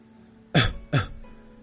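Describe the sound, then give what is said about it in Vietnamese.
A man gives a light cough in two short, quick bursts, one right after the other. Both are soft and stand alone, with no talk. “hắn nhẹ nhàng ho một tiếng nói”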